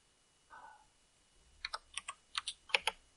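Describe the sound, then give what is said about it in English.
Typing on a computer keyboard: faint, crisp keystrokes come in a quick irregular run of several clicks near the end, preceded by one soft isolated sound. “You're going to mute yourself when you type.”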